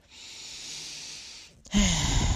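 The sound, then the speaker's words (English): A deep breath is drawn in as a soft, steady hiss for about a second and a half, then let out as a louder, rougher exhale. “By the way, take a deep breath in.”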